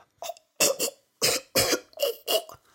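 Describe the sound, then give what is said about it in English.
A person imitates choking on food with a run of harsh, raspy coughs: a faint first one, then about five loud bursts in an uneven rhythm with short gaps between them. “You have to be careful when eating certain kinds of food, as they can get caught in your throat and you will start choking. You go...”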